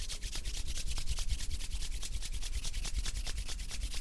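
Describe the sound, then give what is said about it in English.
Palms rub briskly together in front of the chest to create heat, making a fast, rhythmic dry swishing of many even strokes with no talk. “Once you're ready, place both palms together in front of your chest and start rubbing them to create heat.”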